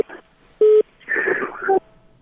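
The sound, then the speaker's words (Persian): Telephone line tones after a call-in caller is cut off: a short, loud, steady beep, then a garbled, buzzy electronic burst ending in a brief second tone. “تماس شما قطع شد، میتونین تا یک دقیقه دیگه هم بر ما زنگ بزنین.”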